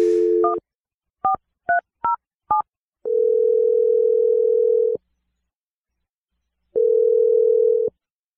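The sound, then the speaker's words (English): Touch-tone telephone dialing: a few short electronic keypad beeps in quick succession, then two long steady ringing tones separated by a silent pause as the call connects, with no talk. “Okay, I'm going to dial the number right now. Here we go.”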